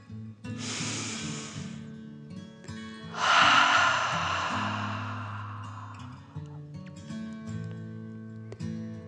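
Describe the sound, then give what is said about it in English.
A deep breath in and out during a children's bedtime guided meditation. A breathy inhale is followed after a pause by a longer, louder exhale that fades slowly, with soft music sustained underneath. “And let's take one more deep dragon breath. Fill up your chest and belly in and out.”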